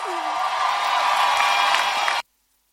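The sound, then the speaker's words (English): Applause and cheering rise from a church audience during a service, a dense, steady wash of clapping and whoops that holds at an even level for about two seconds, then cuts off abruptly. “Put your hands together for a powerful testimony.”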